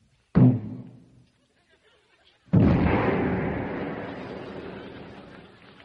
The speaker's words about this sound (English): Oh, that's a mean gun. You just wiped out a whole military base with one shot.